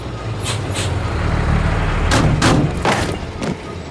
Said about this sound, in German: Stoppen Sie sofort den Motor!